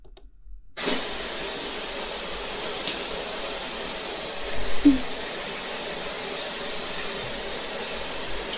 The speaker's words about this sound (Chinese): 真舒服，洗个热水澡，再好好睡一下。